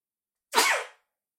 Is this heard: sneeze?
yes

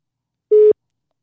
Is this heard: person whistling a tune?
no

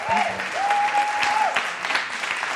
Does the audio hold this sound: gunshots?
no

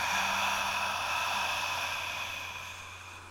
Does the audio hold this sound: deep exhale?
yes

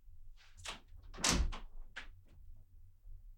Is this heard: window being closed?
yes

